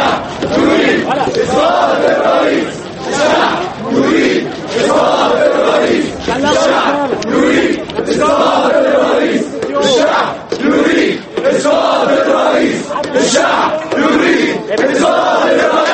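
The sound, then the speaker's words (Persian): A large crowd of protesters in Egypt demanding Mubarak's resignation roars and chants in loud, rhythmic waves of many voices, sustained and dense throughout with no pause. “صدها نفر از تظاهر کنندگان خط نظر از استعفای حکومت مصر و وعده رئیس جمهور حسنی مبارک به اصلاحات گسترده از نو به کوچه و خیابان ها ریختند. آنها استعفای مبارک را که 30 سال باز رئیس جمهور مصر است طلب می کنند.”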